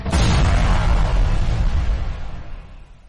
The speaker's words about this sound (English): This thing will self-destruct in 3, 2, 1.